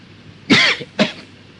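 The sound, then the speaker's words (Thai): Two coughs from an itchy throat, heard alone. The first is a loud, raspy burst with a short trailing rasp; the second is briefer and a little softer. “มันก็คันคอขึ้นมามันก็อยากจะไอเวลาที่จะไอก็ห้ามมันไม่ได้”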